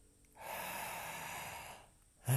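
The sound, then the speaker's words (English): A slow, deep breath drawn into the belly, a single soft, airy inhale lasting about a second and a half, followed by a brief louder sound at the very end. “take a nice deep inhale into the belly.”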